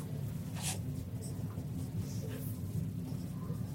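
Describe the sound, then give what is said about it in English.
Writing on a board during a lecture on church doctrine: faint, scratchy strokes come in a few short bursts over a steady low hum. “this is why you don't write on the board, it takes too long”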